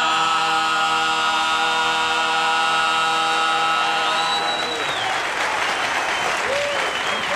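Audience applause breaks out as a song ends: sustained music tones fade out over the first few seconds, then dense, steady clapping continues loudly to the end.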